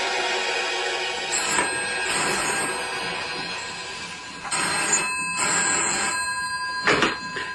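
A telephone ringing, with bell-like tones that break out in repeated bursts over a steady background hum and a faint, continuous high whine.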